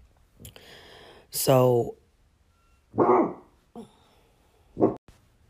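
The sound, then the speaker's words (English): A dog barks in a few loud, separate bursts spread over several seconds. One has a ringing, yelping tone, and fainter sounds fall in the gaps between the barks. “Sorry, that was my dog.”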